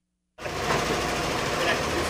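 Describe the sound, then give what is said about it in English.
An embroidery machine stitching a logo onto four blank baseball caps at once for a little league team starts abruptly after a brief silence, then runs as a dense, steady mechanical whirr with rapid fine clatter. “Amanda Pierce runs an embroidery machine that stitches a logo onto four blank baseball caps at the same time.”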